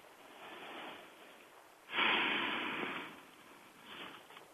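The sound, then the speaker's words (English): Slow, deep breathing during a guided relaxation exercise: a faint soft breath, then a louder, rushing breath lasting about a second, and another gentle breath after it, with no talk. “So let us first start off by getting comfortable and taking a few deep breaths.”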